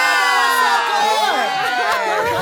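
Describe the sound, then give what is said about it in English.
A crowd cheers loudly and continuously, with high whoops and shouts rising over the roar. “Well, we just cheered, and our guest of honor looked and said, what the hell's going on? And then started to cheer along.”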